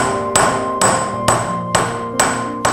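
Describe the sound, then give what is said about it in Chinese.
A hammer striking copper to beat a textured pattern into the metal: six evenly spaced blows, each with a bright metallic ring that lingers until the next strike. “有时候我们铜啊要有一些肌理，是吧？我们就直接用那个锤子来打”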